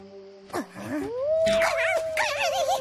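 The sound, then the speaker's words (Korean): A wolf howls near a campsite in the woods: one long, clear tone rises and then holds steady. Wavering, warbling higher howls layer over it toward the end. No voices are heard. “아까부터 늑대 울음소리가 들려요.”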